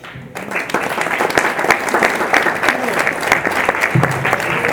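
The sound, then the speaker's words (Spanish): Audience applause at a public health movement assembly, given after a speaker closes a talk. Many individual claps stand out within steady, fairly loud clapping that starts after a brief quieter moment and keeps going to the end. “Otro aplauso”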